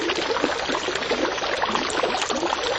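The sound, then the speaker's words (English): Water running continuously in a room, a steady, dense hiss and splash at an even level throughout, with no voices. “You have water running in the room?”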